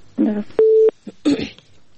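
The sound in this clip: A single short, steady telephone tone sounds as a call is connected on a radio phone-in, set between brief bursts of talk.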